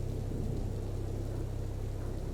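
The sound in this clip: Heavy rain falling as a steady, loud, continuous hiss with a low rumble beneath it, unbroken for the whole stretch.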